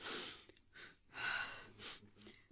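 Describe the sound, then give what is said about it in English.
A person breathes slowly and deeply, with a few soft airy inhalations and exhalations separated by brief pauses, faint and with no speech. “Take one deep breath and tell now.”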